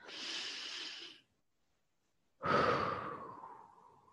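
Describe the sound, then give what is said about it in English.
A slow, deep breath: one long airy inhale, a pause of about a second, then a long, soft sighing exhale that fades out. “take a slow, deep breath. Let's do this together.”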